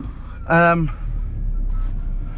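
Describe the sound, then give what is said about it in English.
A car driving away from a vet's office makes a steady, low engine hum that runs throughout. A voice is heard briefly over it. “I'm just driving away from the vet”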